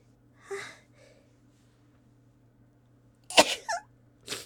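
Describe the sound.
A person gives one sudden, sharp, explosive sneeze, preceded earlier by a softer breathy sound. A low steady hum runs quietly underneath.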